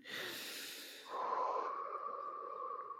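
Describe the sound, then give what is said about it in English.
People take a big deep breath together, a long, soft, airy inhale that swells partway through and holds steady, with no talk over it. “I'm going to take a big deep breath.”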